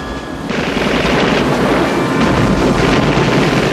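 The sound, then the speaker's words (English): A motorboat bouncing through wind and rain, its dense, rough roar cutting in suddenly after half a second and then holding steady and loud to the end. “Jack watches Sean's boat bounce closer. He ties a rope to the steering wheel and turns around. Sean's spotlight cuts through the rain like a glowing white eye.”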